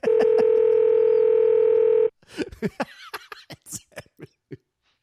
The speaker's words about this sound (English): I hope I'm dialing the right number.